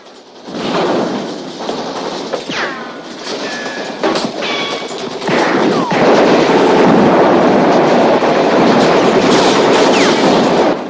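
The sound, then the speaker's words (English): Gunfire from a posse peppering a house with buckshot and bullets, heard as a few sharp, loud bangs, some with ringing, whining tails, giving way to a dense, sustained roar of noise. “As the posse continues to pepper the house with buckshot and bullets”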